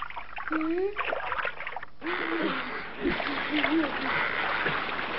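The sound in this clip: Water sloshes and splashes around a ship in an animated adventure story, with voices talking over the churning throughout.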